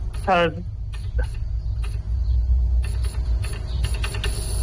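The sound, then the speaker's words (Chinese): Mechanism noise from a car with its hood open: a quick whirring chirp near the start, then a few scattered clicks and ticks over a low, steady hum. “啊，这个声音听到了。这个是车辆上电的状态是吧？”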